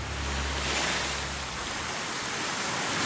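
Ocean waves wash onto a beach at night in a dense, unbroken rushing roar, with a low rumble underneath during the first half that then drops away.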